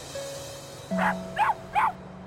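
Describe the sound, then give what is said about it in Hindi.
A dog barks three times in short, separate yaps, fairly faint, over a steady low hum. “शहर वाले दोस्त के पास एक बहुत ही क्यूट सा डॉगी था।”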